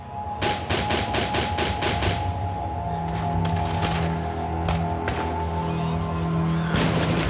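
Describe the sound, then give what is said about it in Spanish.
Gunfire rings out during a suicide commando assault on a building in a wartime Vietnamese city: a rapid burst of sharp, loud shots, then scattered single cracks over a steady low drone. “En cada esquina rugen las armas.”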